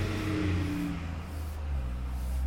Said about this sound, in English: some big truck just drove by.